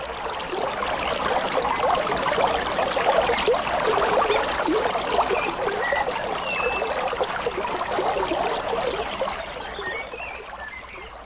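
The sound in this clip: Water flowing in a stream by a riverbank makes a steady, continuous rushing trickle. It stays even throughout and eases off slightly toward the end, with no voices.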